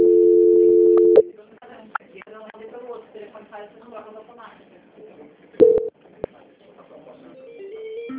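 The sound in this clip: A steady telephone line tone sounds during a bank call transfer, holding one even pitch for about a second before cutting off abruptly. Quieter talk follows, with a few short clicks and bursts on the line.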